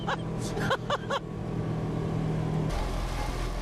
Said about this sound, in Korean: 곤돌라를 타는 승강장까지 이 특수 제작한 셔틀버스를 타고 가지요. 간다! 어머나 세상에 또 이런 것도 처음 타보네. 이거 제설차 아니야?